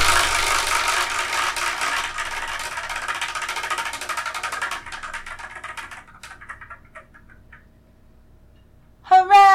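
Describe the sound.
A spinning prize wheel clicks as it picks the next series to review. It starts as a dense, rapid rattle of ticks that gradually slows and thins out until it stops, and a brief tonal burst follows at the end.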